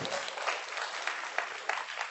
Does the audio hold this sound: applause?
yes